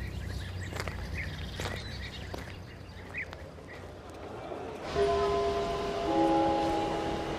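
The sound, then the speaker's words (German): A train arrives at a railway station platform, with a rumbling, clattering background. From about the halfway point, sustained high-pitched squealing tones rise over the noise. “Auf Gleis 7 fährt ein der Intercity 36 von Mainz über Heidelberg.”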